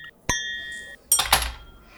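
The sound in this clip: A glass clinks once with a bright ring that lingers for well over half a second, followed by a short, rushing burst of noise as a drink is poured.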